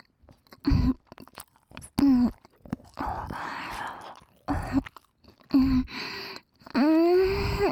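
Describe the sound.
Chewing and soft crunching as someone eats a sweet snack, with hummed murmurs and short voiced sounds between bites, moderately loud and uneven.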